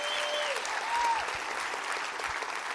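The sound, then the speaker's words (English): A church audience applauds to welcome a visiting elder, a music pastor's father. The clapping is steady and dense and holds at an even level throughout. “I want you to give him a great hand of welcome right over there.”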